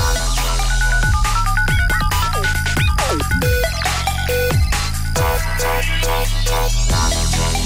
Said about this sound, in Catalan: Comença el Kahoot de Joan Arenyes. Doncs ja comença a sonar de fons la musiqueta Kahoot